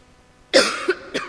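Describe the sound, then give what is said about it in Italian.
A person with a sore throat coughs after near-silence: one sudden harsh cough is followed by two shorter, fainter coughs. “Era per non tossirvi nelle orecchie”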